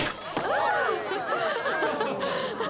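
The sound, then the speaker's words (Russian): A brief sharp crack as a sabre knocks the neck and cork off a champagne bottle, followed at once by laughter and cheerful voices from a group. “саблей сбивает горловину бутылки шампанского вместе с пробкой”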